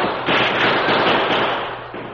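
Guns firing in a battle around a circle of wagons, a dense, rapid crackle of shots merging into one continuous loud volley that slowly fades toward the end.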